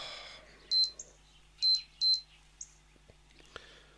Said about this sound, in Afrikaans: Laat ek net die deeg se timer stel.